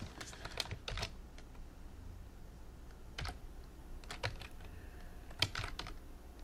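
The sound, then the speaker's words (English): Typing on a computer keyboard: scattered clusters of quick, crisp keystroke clicks with short pauses between bursts, heard alone without talk. “let me type it in the chat”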